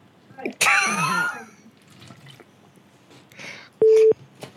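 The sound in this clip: A phone call coming in sounds as one short, steady electronic tone near the end, following a louder burst of harmonic sound early on.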